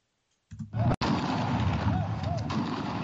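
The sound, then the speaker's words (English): Police gunfire at a street protest against police brutality in Lagos, Nigeria: one sharp, loud crack cuts through a dense, continuous crowd roar that starts abruptly after silence. “Police open fire as protesters continue to demonstrate against police brutality in Nigeria.”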